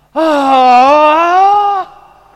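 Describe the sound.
A voice imitating a groan of despair: one loud, sustained moaning tone lasting under two seconds, its pitch wavering slightly before it cuts off, heard alone.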